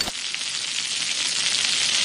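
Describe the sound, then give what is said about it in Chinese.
Tofu skin sizzles as it is stir-fried and tossed in a wok with scallion, ginger and dried tofu. The frying gives a steady, loud hiss that lasts about two seconds. “炒千张咱们就得颠了是吧？ 对，这叫翻锅。”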